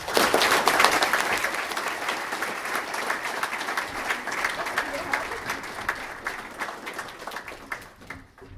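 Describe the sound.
An audience gives a speaker a warm welcome with sustained applause, many hands clapping densely throughout before tapering off at the end.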